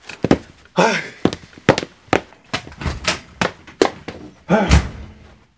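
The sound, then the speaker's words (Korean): A door being hit hard and slammed shut: many loud, sharp thuds and bangs in an uneven run, ending with a heavier, fuller slam. “장은 세차게 문을 닫고 나왔다.”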